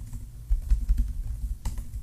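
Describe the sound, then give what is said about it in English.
Soft typing on a computer keyboard: a quick run of muffled key taps with low thumps, quiet and with no talk. “You're going to type ASMR for the souls.”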